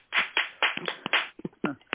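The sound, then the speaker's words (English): Audience applause after a call to give a big hand: a few irregular bursts of clapping, stopping and starting without settling into one steady ovation. “Can we give a big hand?”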